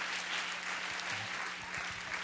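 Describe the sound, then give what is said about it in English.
A church audience applauding with hand claps of praise during a worship service: a dense, steady wash of many clapping hands that fills the whole stretch without a break. “Give him another hand clap of praise.”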